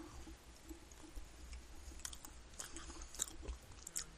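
Someone chews a mouthful of chocolate cake, producing many soft, moist smacks and faint crunchy clicks in an irregular rhythm, quiet and without talk.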